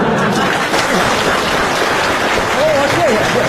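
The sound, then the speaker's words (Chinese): Audience applause at a crosstalk comedy performance, a dense, steady clatter of many hands that fills the whole clip at an even loudness, with a voice briefly audible near the end. “你是不是嫌大伙掌声不热烈呀？”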